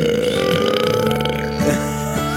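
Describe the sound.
Gurgling belches over music with steady, sustained tones. A few croaky burps rise above the music near the end.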